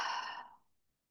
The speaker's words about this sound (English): taking some nice, deep cleansing breaths in through the nose, out through the mouth